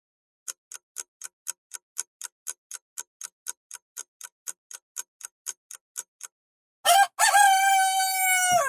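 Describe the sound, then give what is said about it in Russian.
A rooster crows outside a window in the Kremlin, one loud, drawn-out call. It follows a long run of steady, evenly spaced ticks and a brief pause. “Прокричал пернатый суповой набор за окном. Да-да-да, даже в Кремле есть петухи, как бы это ни звучало странно.”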